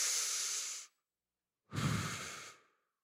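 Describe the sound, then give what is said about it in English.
An audience breathes in and out together: one airy, hissing inhale, then a brief silence and a fuller, lower exhale that fades out. No one talks. “I want you to just breathe in and breathe out with me.”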